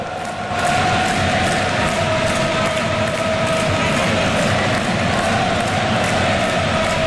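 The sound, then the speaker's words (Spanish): Loud stadium crowd at a football match between the Netherlands and Japan, a dense sustained roar of many voices with a steady tone running through it, swelling in right after the start and holding level throughout. “Se me pone la piel de gallina escuchando al público en el estadio”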